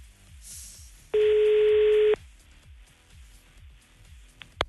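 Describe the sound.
A phone call waits to be answered: one steady, buzzy ringback tone about a second long sounds over a faint rhythmic low background, and a brief click follows near the end.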